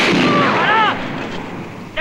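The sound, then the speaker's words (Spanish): Gunfire in a film chase bursts a car's tyres. Loud shots come first, with whining tones over the first second, then ease off before a short, sharp burst near the end. “¡Destruidlo! Revientan las ruedas del otro coche.”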